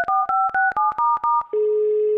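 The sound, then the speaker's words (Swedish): A telephone dials a call: a quick series of short, bright keypad beeps in steady rhythm, each with a small click, followed by a sustained lower, unbroken tone. “jag ska ringa honom. Ja, ring honom.”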